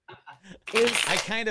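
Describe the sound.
Tarot cards being shuffled: a brief, dense riffling rustle lasting under a second, fairly loud and steady, following a few short soft sounds.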